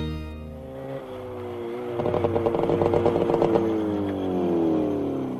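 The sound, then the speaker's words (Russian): A motorcycle arrives in a Russian town with a steady engine drone that breaks into a rapid, pulsing rev midway, then settles back into a smoother hum that gently lowers in pitch. “на мотоцикле приезжает в российский город.”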